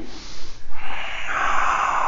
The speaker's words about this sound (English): Everybody lower down. Breath in, breath out.